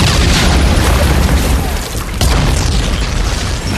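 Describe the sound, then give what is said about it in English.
Heavy booms of artillery shells exploding during an Allied warship bombardment on the European front in World War II, blending into a dense, continuous roar with no clear gaps between blasts. “under a ceiling of screaming shells from Allied warships. This is the European front in the fight against Axis aggression, once again being established in fire and blood.”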